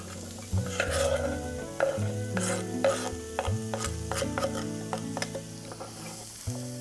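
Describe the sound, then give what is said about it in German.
Stirring and sizzling as cut cabbage leaves and zucchini pieces cook in a pan with softened onion: many sharp scraping strokes at an uneven pace over steady frying hiss, with sustained background music throughout. “Jetzt geben wir noch die Kohlblätter, die geschnittenen, und die Zucchini-Stückchen dazu.”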